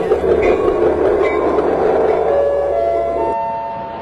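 A train rumbles past as a sound effect, a loud, steady, rushing roar with a faint clatter that thins and fades slightly near the end.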